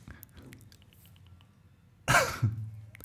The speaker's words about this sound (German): Und ihr müsst, wenn ihr dieses Husten machen wollt, um einen schlechten Gag zu verdeutlichen, müsst es möglichst trocken sein.